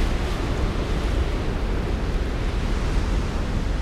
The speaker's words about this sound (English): I can hardly hear anything over the sound of the wind! And I can feel the wind and dust passing overhead!